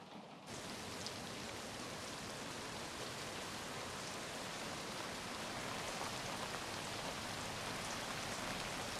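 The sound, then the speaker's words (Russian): Steady rain falling outside at night, a dense, continuous hiss of drops that holds at an even level throughout, with no voices. “Ночь. На улице идет дождь.”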